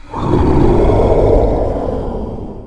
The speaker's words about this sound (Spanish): Y cuando llegó al lugar donde viven los monstruos, ellos rugieron sus rugidos terribles.